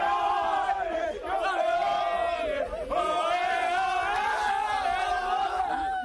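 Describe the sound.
A crowd of players and fans chanting loudly in celebration of a third-tier Spanish football league championship. Massed voices keep up a steady, unbroken chant with cheers throughout.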